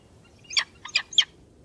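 A small bird chirps three brief, high, bright calls in quick succession within about a second, over a faint low background hum.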